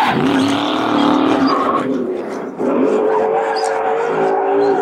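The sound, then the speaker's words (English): A Mustang's engine held at full throttle gives a loud, strained, harmonic drone that suddenly dips as power cuts out midway, then surges back and keeps droning to the end. “It just cuts power there! When it jerked there, I had it floored that whole time.”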